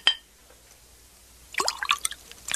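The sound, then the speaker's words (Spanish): Wine poured into a king's cup: a faint clink at the start, a quiet pause, then a short run of trickling, splashing pouring sounds that continues to the end. “Tenga esta copa, es mi copa. Sí, su majestad. Ahora, llénela de vino.”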